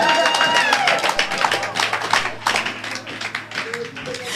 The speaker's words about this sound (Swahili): bwana asifiwe haleluya pigia yesu makofi